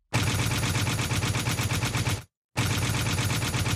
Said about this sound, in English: I'm going to shoot myself with this this stylized machine gun button.